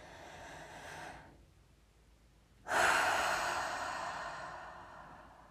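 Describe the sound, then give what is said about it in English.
Deep breathing during a guided breathing exercise. A steady breath is followed by a short pause, then a louder, long breath that slowly fades away. “And so let's have another one of those deep breaths, and maybe close your eyes if you're not driving.”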